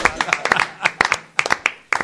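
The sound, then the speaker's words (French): Quick, separate hand claps from one person applauding a correct answer during a quiz game, a run of sharp, uneven smacks with short gaps between them. “Oh, j'applaudis.”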